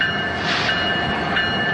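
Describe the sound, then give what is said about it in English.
A train passing on railroad tracks, a loud, continuous rolling rumble with steady hiss and a thin high whine held throughout. “You can hear it on its way to wherever it's being sent to. The railroad tracks are a good place to record”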